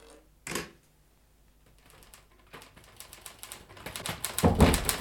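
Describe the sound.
Typewriter keys clacking in a radio-drama office scene: one short burst of strikes, a pause, then many rapid clicks that grow denser and louder toward the end.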